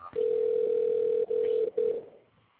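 A telephone line rings during a call attempt: a steady, mid-pitched electronic tone sounds in one long stretch, then two shorter bursts with brief gaps between, before fading out, with no talking.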